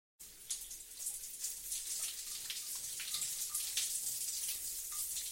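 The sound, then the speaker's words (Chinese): Water runs for a bath, starting abruptly after a short silence, then holding a steady, bright splashing hiss with small drips and patters throughout. “啊，不想那么多了，赶紧洗澡睡觉了。”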